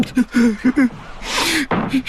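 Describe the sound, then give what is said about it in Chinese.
A person crying in a series of short, pitched, voiced sobs with a long breathy gasping inhale in the middle, followed by a few more brief sobs. “哎，是谁在哭？”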